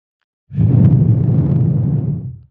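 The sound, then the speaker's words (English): A deep, slow exhale: one long, heavy, low breathy rush that starts abruptly and holds steady for about two seconds before tapering off. “Let's take a deep breath together and let it out slowly.”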